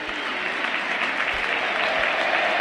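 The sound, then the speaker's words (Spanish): A stadium crowd at the Monumental gives an ovation to Argentina goalkeeper Emiliano "Dibu" Martínez on a Tuesday night, a dense, steady roar of applause and cheering that holds at an even level throughout. “Aparecen los arqueros argentinos encabezados por Emiliano "El Dibu" Martínez. Escuchen. Lo envuelven en ovaciones al campeón del mundo marplatense.”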